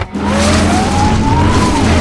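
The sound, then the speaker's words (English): RV rear tire spinning against chock blocks, a loud steady whine with engine drone beneath it. A sustained tone holds and wavers slightly for about two seconds, with no voices. “Now the rear tire spins in the chalk blocks.”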